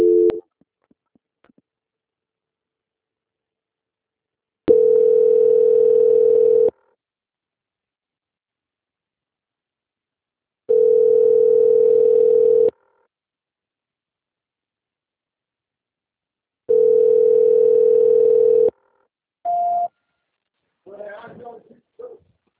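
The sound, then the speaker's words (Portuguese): Telephone tones during a call transfer: three long, steady mid-pitched beeps separated by silent gaps, followed by a short, higher beep. “Só um minutinho que eu vou transferir a ligação.”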